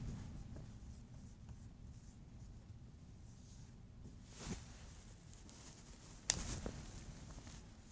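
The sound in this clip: Writing out an equation, likely on a board, with scratchy strokes running steadily over a low background hum and a couple of sharper, louder strokes near the end.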